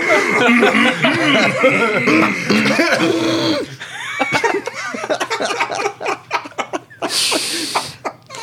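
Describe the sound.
Voices trade repeated throat clearing and coughs in a throat-clearing competition, mixed with chuckling. Drawn-out voiced grunts give way to many quick, sharp bursts in the second half.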